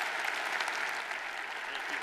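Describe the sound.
A church audience gives a guest speaker a warm welcome with brief, steady applause: many hands clapping at an even level throughout.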